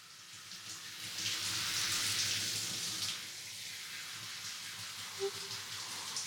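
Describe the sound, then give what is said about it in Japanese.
Hot water streams over hair during a hair wash, a steady hissing pour that swells in the middle and then runs on more softly, with a small drip or splash near the end. “熱いお湯がかかりますので目を閉じてくださいませ。”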